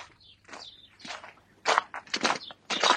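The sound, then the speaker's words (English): Snow boots crunching through fresh snow in Boston, with several uneven, crisp crunching steps that grow louder toward the end, while faint bird chirps sound in the background. “walking in the fresh snow in her snow boots. The good nostalgic crunch, she says, juxtaposed with the birds singing in the background.”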